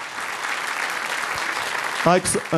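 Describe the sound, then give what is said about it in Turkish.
Steady audience applause at a Turkish classical music performance with an orchestra. The clapping stays continuous and moderately loud, then a voice speaks near the end. “Dolayısıyla o güzel alkışlarınızla orkestramızın da refakatiyle”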